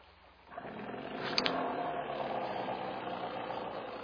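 A faint outboard motor starts up on a canoe on the water. The troubled engine settles into a low, uneven, knocking rumble that holds steady to the end.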